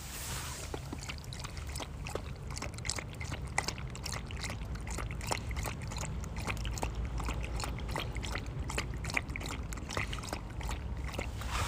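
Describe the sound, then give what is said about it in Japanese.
A dog laps water steadily after playing on a snowy winter walk along a riverbank, many quick wet lapping clicks in a fast, even rhythm that continues throughout. “一郎くんお水飲んでます。いっぱい遊んだんで喉乾いたみたいですね。”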